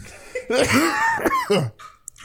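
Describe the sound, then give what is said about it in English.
A man clears his throat in a few gruff, raspy, voiced bursts over about two seconds, loud and rough, followed by a quieter trailing sound. “he's clearing his throat”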